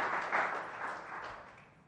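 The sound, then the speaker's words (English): Applause from an audience clapping after an answer in a conversation, a steady wash of hand claps that gradually fades over about two seconds. “they've clapped after every answer you've given and not after anything I've said”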